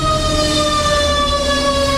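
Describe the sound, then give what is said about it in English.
A fire truck siren wails loudly and steadily throughout, its sustained tone carrying strong harmonics over a low rumble, with no voices present. “Oh, it's a fire truck.”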